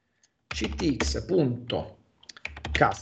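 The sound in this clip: Keystrokes on a computer keyboard as code is typed, a quick burst of clicking mixed with talking, a short pause, then a final flurry of taps.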